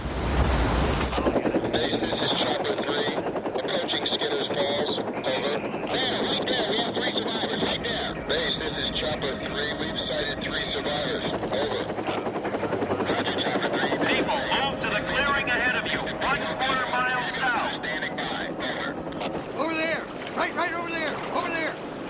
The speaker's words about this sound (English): A helicopter flies over trees.